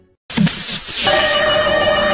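A telephone rings into a radio quiz call-in, bursting in suddenly after a brief silence as a loud, continuous electronic ring with steady high tones that holds to the end.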